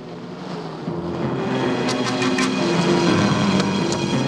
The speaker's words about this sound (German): Die Fahrt endet am Hafen, wo ein Polizeiboot wartet.